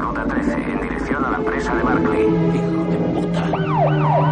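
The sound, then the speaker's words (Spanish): An ambulance siren wails as the ambulance races along a road, recklessly overtaking cars. The rising and falling tone sits over a loud, dense background of traffic and other sound, and it is clearest toward the end. “Mientras, Kimball, también con las sirenas de la ambulancia sonando, adelanta los coches de manera temeraria.”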